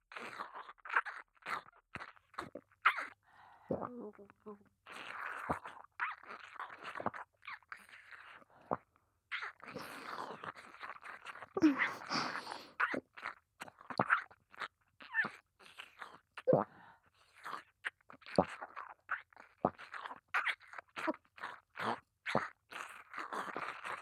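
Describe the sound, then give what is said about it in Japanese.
Gulping and swallowing sounds are heard close to the ear. Many soft, wet mouth clicks and gulps come in irregular bursts separated by brief quiet gaps, all at low volume. “大好きなごっくんを耳元で聞かせるね。”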